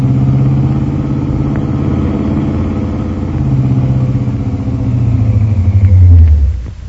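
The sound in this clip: A car engine rumbles as the car drives around a street corner: a loud, steady low drone that swells toward the end, then cuts away sharply.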